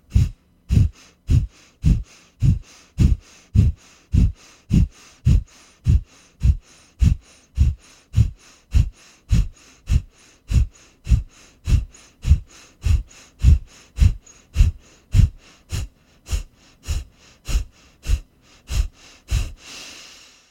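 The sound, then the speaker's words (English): Forceful breathing in through the nose during a breathing exercise, many sharp, evenly paced breaths repeating in a steady rhythm for about twenty seconds without talk. “Breathe in through the nose and begin.”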